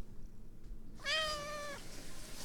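A thirsty cat gives a single drawn-out meow, clear and tonal, lasting under a second against an otherwise quiet background.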